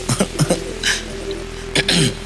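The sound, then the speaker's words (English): Someone clears their throat in a few rough, raspy bursts of uneven length and spacing, fairly loud against a low steady hum, with no speech. “Clearing throat.”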